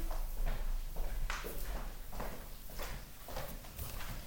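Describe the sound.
Footsteps of a person walking to a cupboard, a steady series of soft, muffled steps at an even pace with no voices.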